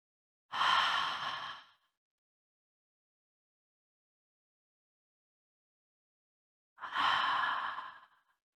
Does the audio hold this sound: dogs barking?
no